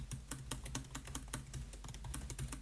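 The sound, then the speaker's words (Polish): Fast typing on a MacBook Pro M3 laptop keyboard in a binaural recording, with rapid, dense key clicks in an uneven rhythm that stay soft and steady throughout, with no voices. “Klawiatura brzmi tak, kiedy na niej szybko piszemy.”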